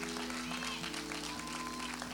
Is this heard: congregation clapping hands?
yes